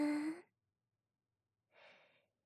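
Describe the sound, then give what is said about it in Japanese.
Deep breathing during a guided breathing exercise: two slow, airy breaths separated by a pause, the first louder with a faint voiced tone, the second softer and breathier. “深呼吸をしていくわよ。スーッと吸って、ふーっと吐いて。”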